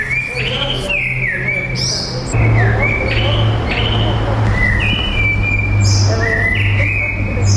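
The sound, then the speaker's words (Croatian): Many birds chirp and whistle in a monastery courtyard near a busy street, with quick overlapping calls above a steady low hum. “Evo, ove su nas ptice dočekale u tom budućem svetištu, naime iz ulice Pomerio”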